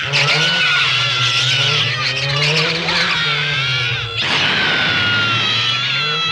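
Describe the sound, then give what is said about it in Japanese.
A car drives with a loud, continuous engine roar and a high, wavering whine laid over it, the pitch sliding up and down throughout, with one momentary dip near the end. “タツレッジキッカーの車。”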